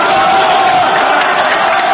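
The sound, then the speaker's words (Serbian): Crowd noise at an election victory celebration in Serbia: a loud, dense, continuous roar of many voices cheering and shouting together, sustained without a break. “Sve ostalo bilo je deo pobedničkog folklora. Skandiranje ove vrste opet dobro dođe.”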